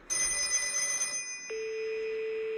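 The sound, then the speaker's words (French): A telephone rings: a loud, bell-like ringing burst of about a second, then, after a short pause, a steady single tone held to the end. “Ça sonne.”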